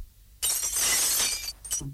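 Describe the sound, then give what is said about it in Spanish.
Ice palace walls shattering as a story sound effect: a sudden loud burst of breaking, glassy crashing holds for about a second, then a few small tinkling clinks follow before it fades. “Antes de que Sofía dijera nada, los muros de hielo se rompieron”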